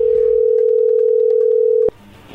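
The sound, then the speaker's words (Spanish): A steady telephone tone sounds as an incoming call comes through, one unbroken hum holding for about two seconds before cutting off abruptly into quiet line noise. “ahí entró la llamada”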